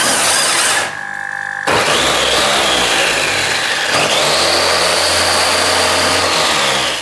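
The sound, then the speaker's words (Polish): Electric actuator running on a student-built robot that collects balls and shoots them out. A loud, steady mechanical drone and whine plays alone, with abrupt shifts in tone partway through. “To jest dźwięk siłownika.”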